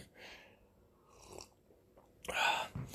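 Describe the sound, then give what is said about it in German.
Someone drinks a beer. Quiet sips and swallowing sounds come in short bursts, then a louder gulp and an exhale arrive near the end. “ich muss gerade mal Bierchen trinken”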